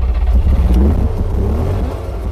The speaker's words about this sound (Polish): Odpalimy maszynę. Siadaj, zajmij miejsce. Nie rób mi wstydu. Muszę na biegu odpalać ją.